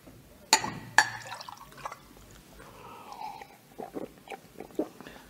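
Water poured for drinking in a radio play: two sharp clinks early on, then soft, faint liquid splashing and trickling with scattered small taps.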